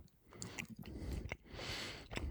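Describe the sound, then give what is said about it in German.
Faint, wet smacking and chewing of a sweet caramel dessert: many soft, irregular mouth clicks and squishy chews, without talk. “Ich hoffe, dass du auch vor allem den Schmatzen rausbekommst.”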